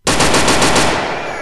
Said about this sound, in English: I didn't want to get shots. My bad. We need to get a drum roll.